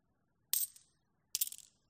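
Coins dropped into a temple collection chest: two short, bright metallic clinking bursts, each trailing off in a brief rattle, with a pause between them and nothing else heard.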